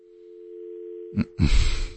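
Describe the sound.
A steady, low, humming telephone line tone during a failed call-in to a radio studio. It drones alone for about a second, then breaks off into two harsh, noisy crackling bursts.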